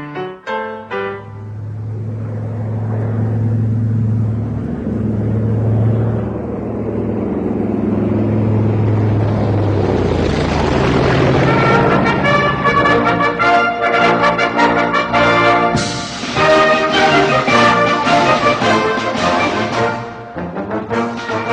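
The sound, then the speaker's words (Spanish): Opening chords of the Argentine Air Force march: loud, long sustained low tones hold for the first half, then fuller band music with bright, layered harmonics swells in and carries on strongly. “con estos acordes primeros de la marcha de la Fuerza Aérea Argentina”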